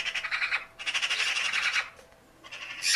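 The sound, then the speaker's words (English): Magpies call from trees in Germany: harsh, rattling chatter in three loud bursts, with brief gaps between them. “And what you are hearing there are magpies. Magpies, beautiful, magpies.”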